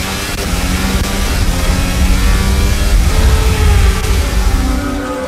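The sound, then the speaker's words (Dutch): Formula One cars accelerating off the grid at the start of the 2022 Australian Grand Prix in Melbourne, heard from a driver's helmet camera: a dense, unbroken roar of engines, loud and steady throughout, with no voices. “Hier de start gezien vanaf de helmcamera van Alonso.”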